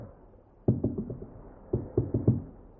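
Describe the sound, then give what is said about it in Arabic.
Knocking on a door from outside at night in a radio drama: two bursts of four firm, hollow raps with a short pause between them, against near silence. “مين الخبط بره ده؟”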